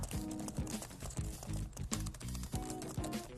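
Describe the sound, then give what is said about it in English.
Rapid typing on a computer keyboard with stiff keys, many sharp keystrokes in a fast, uneven run, with tonal sound underneath. “They're a little on the stiffer side, so you'll have to really type with purpose.”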